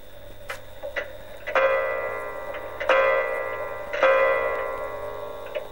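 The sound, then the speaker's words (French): An old wound-up clock ticks with a few sharp ticks, then three resonant chime strikes that ring out and slowly fade, each followed by further ticking. “découvrit au fond d'une armoire une vieille horloge. Elle la remonta et s'aperçut qu'elle sonnait fort bien et marchait encore.”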